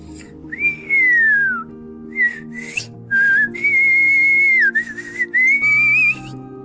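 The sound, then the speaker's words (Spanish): A strange fish-like creature with a human face whistles a cheerful, melodious tune in sliding, wavering phrases over soft background music. “Silbó melodiosamente aquella criatura. Era una tonada alegre”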